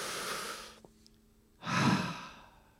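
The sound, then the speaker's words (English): An audience takes a deep breath: a long breathy inhale, a short quiet pause, then a fuller, louder sighing exhale. “Can you join me? Take a deep breath.”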